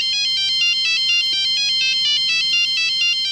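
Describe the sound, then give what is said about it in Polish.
An old mobile phone ringtone from roughly a quarter century ago plays a rapid, repeating electronic melody of high, beeping notes. It stays loud and steady throughout, with no voices. “Pamiętają państwo, jak telefon dzwonił o tak?”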